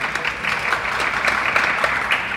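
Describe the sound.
Light applause from an audience, a thin, even smattering of clapping that holds at a steady moderate level without building or fading.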